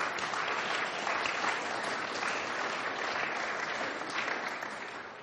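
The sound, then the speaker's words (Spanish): Sustained applause from an audience during a bilingual Spanish and English church service, offered to the Lord: a dense, even patter of many hands holds steady for several seconds and eases slightly near the end. “¿Le da una ofrenda de palmas al Señor? Can you give the Lord a hand?”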